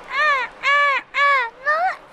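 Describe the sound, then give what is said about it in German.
A parrot squawking aboard a pirate ship: four loud, harsh, harmonic calls in a steady rhythm, the last one bending upward in pitch. “Sogar der Papagei krächzte.”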